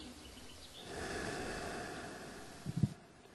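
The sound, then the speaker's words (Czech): A slow, deep breath taken during a breathing exercise: a soft, drawn-out airy rush that swells and fades, ending in a brief snort-like puff of air. “Takže se zhluboka nadechněte a vydechněte. Deeply inhale, exhale.”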